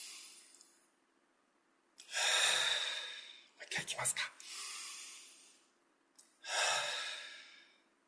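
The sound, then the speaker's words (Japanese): Deep breathing during a stretch break: a few loud, airy breaths, long drawn inhales and exhales separated by quiet pauses, with no other sound. “ちょっと体を伸ばして。はい、深呼吸をしましょう。”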